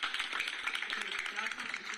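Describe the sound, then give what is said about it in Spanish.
Scattered audience clapping at a municipal council award ceremony, many quick claps under a voice speaking throughout. “Una vez más, un aplauso.”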